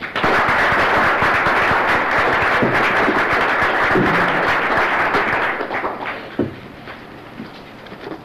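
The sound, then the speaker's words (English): An audience at a Chicago Civil War roundtable lecture in 1983 applauds to welcome the evening's speaker. The clapping is loud and dense, holds steady, then thins and fades over the last couple of seconds. “Ladies and gentlemen, please join me in welcoming Mr. Robert Crick.”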